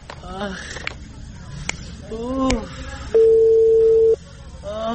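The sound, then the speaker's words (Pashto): A telephone call is placed: a steady electronic tone holds for about a second, preceded by short tonal chirps and a couple of sharp clicks. “زه به تر هغې د لیوانی سپي د واکسین مسؤول ته زنګ ووهم چې ژر راشي او چنارګل”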